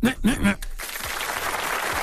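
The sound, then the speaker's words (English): Applause, a dense, steady wash of clapping that follows a brief bit of talk and carries on to the end. “You get applause, too. You get applause.”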